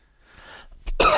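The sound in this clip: A person coughs from a tickle in the throat: a faint throaty rasp builds, then a sudden loud, harsh cough bursts out at the end.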